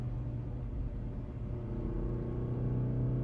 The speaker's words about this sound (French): Pied au plancher, il partit en trombe.